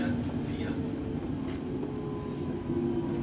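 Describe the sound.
A subway train ride on underground line 4: a continuous low rumble and rolling drone, overlaid with a faint steady tonal whine, runs evenly from start to finish.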